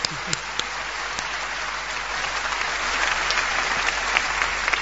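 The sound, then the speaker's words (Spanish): An audience applauds during a literature lesson with dense, even clapping and a few sharper claps. The applause swells slightly louder toward the end, with no talking over it. “Hay que aplaudir a Albert Camus, por favor.”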